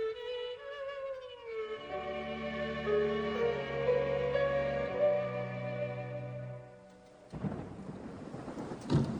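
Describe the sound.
Rain pours with thunder on a rainy evening, arriving in the last two seconds after a long stretch of sustained, layered musical tones; the downpour is a fairly loud, dense hiss.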